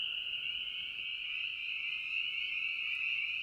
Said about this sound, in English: But first, let's consider the spring peeper.